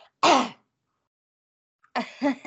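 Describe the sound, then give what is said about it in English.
Throat clearing from a tickle in the throat: one harsh, rasping burst, then after a silent pause two more short throaty rasps close together, with no talk over them. “Hold on, I have a little tickle in my throat.”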